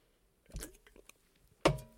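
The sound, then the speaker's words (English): A sip of a drink, heard as a couple of short, wet mouth sounds separated by near silence, with no talk. “Time for a sip here.”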